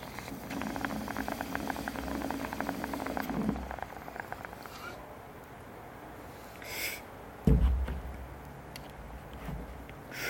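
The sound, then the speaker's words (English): Bong water bubbling as someone takes a hit from a freshly loaded bowl: a low, continuous gurgling burble for a few seconds that then drops away to quiet. “I'm gonna take a hit off of this new bowl I just loaded.”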